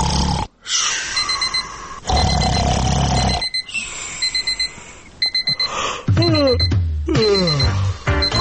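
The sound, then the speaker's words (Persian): An alarm clock rings loudly in bursts of shrill, rapid electronic beeping broken by brief pauses, with low rumbling and warbling tones mixed in toward the end. “آیا راحت از خواب بیدار نمی شوید؟ آیا صدای ساعت شما را بیدار نمی کند؟”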